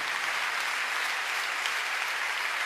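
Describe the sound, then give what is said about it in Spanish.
A church audience applauds during a worship service, giving praise to God. Thick, even clapping continues without a break at a constant moderate level. “dan un aplauso al Señor por esa presencia.”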